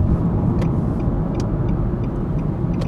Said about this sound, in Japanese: 今ね安全運転をして帰ってる